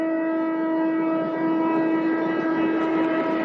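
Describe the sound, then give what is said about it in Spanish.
A train passing along a track at high speed, carried by a loud, steady droning horn tone that holds unbroken for several seconds with no voices. “observa desde abajo cómo pasa el tren junto a los tres”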